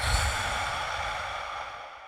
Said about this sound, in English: Exhale through your mouth for 4 seconds.